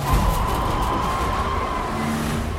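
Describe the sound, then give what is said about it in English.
FBI car speeding away and spinning its tires beneath an overpass, a continuous loud roar of engine and road noise. “Danny and Ray speed away in one of the FBI cars, spinning the tires and shooting off beneath the overpass.”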